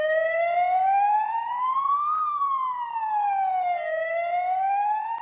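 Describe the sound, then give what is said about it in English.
A Turkish ambulance siren wails alone, loud and rich in harmonics. Its electronic tone glides slowly upward, sweeps back down, then begins climbing again. “This is the sound of a Turkish ambulance.”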